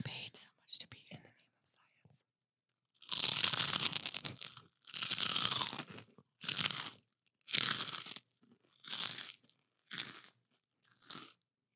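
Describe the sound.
Crunching as someone bites and chews a crispy pork rind: six loud, crisp bursts of chewing separated by short silences, after some faint, soft sounds at the start.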